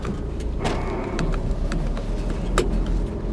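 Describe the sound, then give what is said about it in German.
A car moves at walking pace through floodwater against a strong current. A steady, low rumbling noise runs throughout, with a few sharp knocks and clicks over it. “Ich fahre hier runter.”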